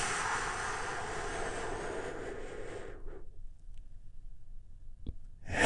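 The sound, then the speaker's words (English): A long, deep breath drawn in: a steady, airy hiss lasting about three seconds that then cuts off into near silence, broken by a faint click. “And we do that by taking a big, deep, healing breath. Right now, here we go.”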